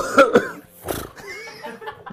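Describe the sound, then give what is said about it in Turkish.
Coughing comes in a few short, harsh bursts, the first two close together and a third shortly after, followed by low, muffled talk. “niye öksürüyorsun?”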